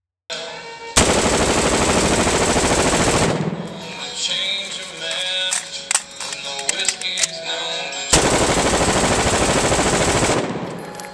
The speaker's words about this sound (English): There it is. That was two mags gone. And he does this for about a minute. You heard how quickly those went. He goes through quite a few magazines.